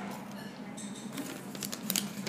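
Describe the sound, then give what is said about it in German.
Soft papery rustling and crinkling as a folded paper note, two slips folded together, is opened out. The crackles are quiet and steady, with a few sharper crinkles near the end. “Jetzt falte ich den auf. Das sind sogar zwei gewesen.”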